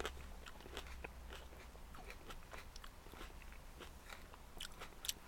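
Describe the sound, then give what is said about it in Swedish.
Faint crisp crunches come as someone bites into and chews a cherry tomato, a few soft crackling snaps over quiet background. “Och det ser ut som en vanlig sån här körsbärstomat som man köper i en liten ask eller någonting. Precis, vi får se om den smakar.”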